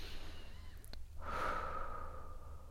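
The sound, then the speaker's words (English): One long, deep breath taken during a guided relaxation, a soft airy rush that swells and slowly eases off, faint and heard on its own. “So taking a deep breath,”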